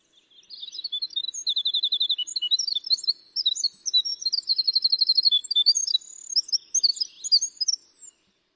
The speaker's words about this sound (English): I think we've got a tape of that sound. Let's let everybody listen to this beautiful flute-like sound of the winter wren.